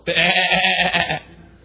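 A person imitates a sheep bleating: one wavering, nasal baa held for about a second, then trailing off.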